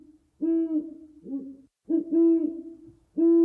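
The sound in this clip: Owl hooting from a video game comes in several low, hollow hoots in repeated bursts separated by brief gaps, clear and fairly loud with no talking over them.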